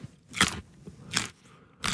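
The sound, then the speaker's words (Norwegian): Crisp crunching as someone bites into and chews a fresh, in-season Norwegian carrot: three separate loud, crackly crunches, each short and followed by a quieter pause. “Her er en lydprøve av Norske Gullerøtter i sesong, utført av Johannes Høsflott Klæbo.”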